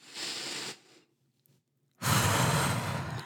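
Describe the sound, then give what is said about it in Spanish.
A deep breath in through the nose and out through the mouth during a guided breathing exercise: a soft airy inhale, a silent pause, then a louder, fuller exhale that carries to the end. “inhala aire por tu nariz y sácalo por la boca. Lo hacemos otra vez.”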